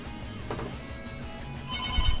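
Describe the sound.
A telephone ring tone sounds through a noisy phone line while a call is being placed. It is faint, mixed with steady line hiss, and grows a little stronger near the end.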